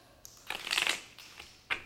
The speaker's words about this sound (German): würfel eine 3, dann kannst du die Seehexe rausschmeißen.